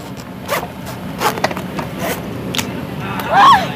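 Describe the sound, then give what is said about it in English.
A bone saw rasps through the head of a yellow-edged grouper during fish sampling in 100-degree heat. Uneven scraping strokes sit over constant background noise, and a stronger, grinding push comes near the end. “When they're done with that, they reach for the bone saw.”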